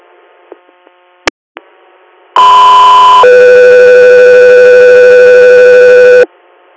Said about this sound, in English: stand by for tones.